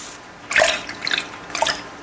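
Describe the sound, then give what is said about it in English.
Hot tap water running into a sink during shaving, heard as three short, bright splashy bursts separated by brief quieter gaps. “Is that water really hot?”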